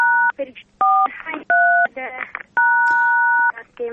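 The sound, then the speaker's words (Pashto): Telephone keypad buttons are pressed during a phone call, producing four loud two-tone beeps, the last one held longest, with a voice heard between the tones. “د بټنو غږونه راځي د تلیفون د بټنو بخښنه غواړم”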